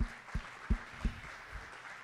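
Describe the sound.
Applause from a church audience welcoming a guest speaker to the front: a steady, dense clatter of clapping hands without voices, punctuated by a few low, dull thumps.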